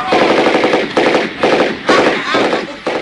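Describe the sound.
Rapid machine-gun fire during an enemy attack, loud and continuous, in sustained bursts broken by a few brief gaps.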